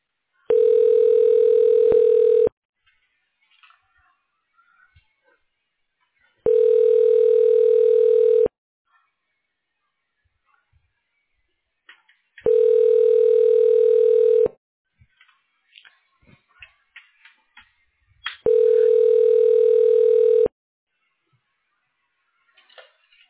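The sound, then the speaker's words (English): A telephone ringback tone sounds while a call is transferred: four long, steady rings of about two seconds each, separated by pauses. Faint scattered clicks and noises fill the gaps. “Yeah, let me go ahead and transfer you over to Armando.”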